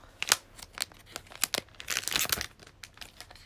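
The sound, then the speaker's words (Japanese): Crinkling and tearing of wrapping as a package holding a winged dinosaur figure is opened late at night: a quiet run of irregular crisp rustles and crackles of varying loudness, with no voices. “ではまず開封”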